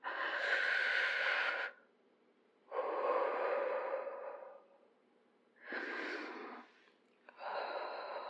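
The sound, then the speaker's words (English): Deep human breathing: four long, loud, airy breaths with a rough, slightly wheezy texture, separated by short quiet pauses. “Okay, breathe.”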